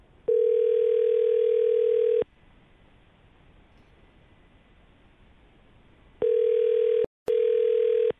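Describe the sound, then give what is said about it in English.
Steady telephone dial tone heard while placing a call: one long unbroken tone, then a stretch of faint hiss, then two shorter bursts of the same tone split by a brief gap. No one speaks. “let's call Jordan and see if we can get her to talk to us, okay? All right, sounds good. All right, hang on.”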